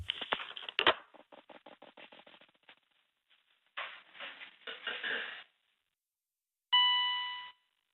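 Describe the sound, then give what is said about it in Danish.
A single electronic beep, likened to a submarine sonar ping, rings out near the end as a steady tone with overtones that fades away. Before it come a fast run of light clicks and a couple of rustling bursts. “Den der bip, der, det er ligesom sådan en ubådsping. Hør det?”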